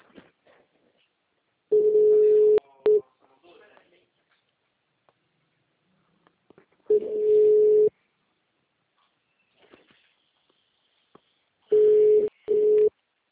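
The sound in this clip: Ringback tone on an outgoing phone call: three bursts of a steady, mid-pitched tone, each lasting about a second, separated by long stretches of near silence with a few faint clicks.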